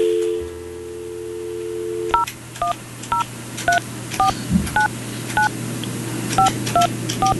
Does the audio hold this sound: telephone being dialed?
yes